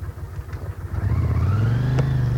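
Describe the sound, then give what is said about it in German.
A car pulling away, its low engine drone swelling and growing louder after about a second, then holding a steady, rising hum, heard alone without talk. “Setz dich ins Auto und dann fahrt los.”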